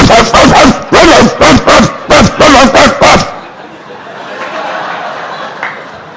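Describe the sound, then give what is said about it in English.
A person imitates a dog barking, making sounds like a vicious guard dog to scare off a gang of intruders: a rapid series of loud, sharp voiced barks, then quiet. “you are my Lord, I am your dog. So I started to make sounds.”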